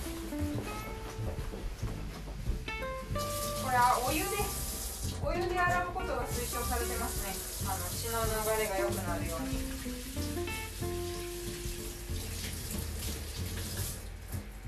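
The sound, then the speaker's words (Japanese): Water runs steadily from a tap while hands are washed at home, a continuous hiss and splash that swells in places, with voices over it. “まずは手を洗いましょうとそりゃそうだちょっと洗ってきます”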